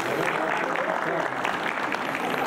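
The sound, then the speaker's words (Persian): Men in an audience clap in dense, steady applause that runs without a break through the whole stretch. “آقایون دست بزنین.”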